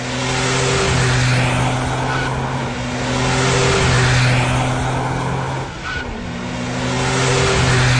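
Engines of rally race cars setting off on the third day of a multi-day competition: a loud, steady drone with a strong low tone that swells and dips slightly and holds throughout, with no voices.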